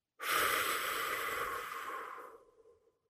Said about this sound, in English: First, let's take a deep breath. Let it out.